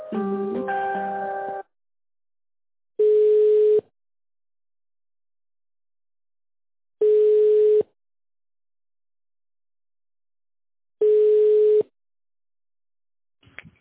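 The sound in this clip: Telephone ringback tone while a call is transferred: a brief multi-tone jingle, then three long, steady beeps of one pitch at even intervals separated by silence, with a faint click at the end.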